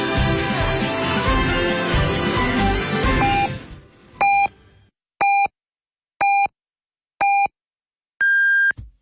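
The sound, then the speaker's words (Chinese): Hourly time-signal beeps on a Beijing city radio station cut in as music fades out: four short, evenly spaced tones, then a final longer tone at a higher pitch, all clean against silence. “北京城市广播1073，请您准确对时，现在是北京时间14点整。”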